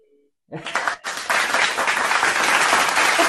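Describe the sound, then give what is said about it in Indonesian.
Applause sound effect set off by accident during an online voice chat room session: a burst of dense, continuous clapping that starts suddenly, briefly dips, then surges back and holds at a steady loud level for about three seconds. “aku kepencet tepuk tangan kayak. Aku jadi nervous.”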